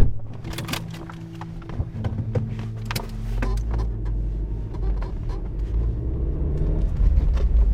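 A car engine rumbles low and steady while driving through green ravines near Nałęczów, Poland, with scattered clicks and knocks from the vehicle and a slight swell in loudness toward the end.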